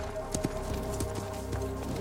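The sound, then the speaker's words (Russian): A horse's hooves clop as it climbs a steep slope on a riverbank, with an irregular run of soft hoof strikes at moderate volume and no voices. “Тамакти поднимается на лошади по крутому склону у реки к Магре”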